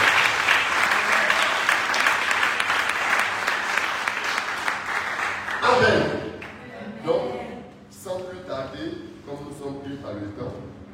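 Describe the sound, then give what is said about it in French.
An audience at a church service applauds with dense, steady clapping through the first half, which then gives way to a voice speaking. “Que Dieu nous fortifie. On acclame le Seigneur.”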